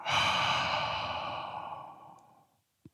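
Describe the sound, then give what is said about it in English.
A long, breathy exhale through an open mouth, as in fogging a mirror during a meditation breathing exercise. It starts loud, fades steadily over about two and a half seconds, and ends with a brief soft click. “One more time, we'll inhale through the nose and fog the mirror.”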